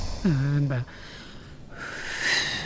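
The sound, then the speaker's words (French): People blow air from behind a tired character: a short pitched vocal sound comes first, then a steady breathy whoosh of blowing starts past the middle and holds to the end. “Tenez, je suis tellement fatigué, soufflez derrière moi. Ça va m'aider à avancer.”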